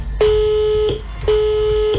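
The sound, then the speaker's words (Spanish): Telephone ringing tone on an outgoing call to a contest winner: two even, mid-pitched tone bursts of under a second each, separated by a short gap. “Queremos, por favor, hacerles escuchar la llamada junto a nuestra ganadora, así que adelante, por favor, y suban el volumen para que puedan escuchar.”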